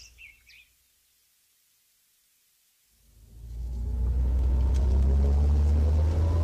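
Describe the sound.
A car drives as a deep engine and road rumble swells in and holds steady and loud, after a near-silent stretch opened by a few brief high bird chirps.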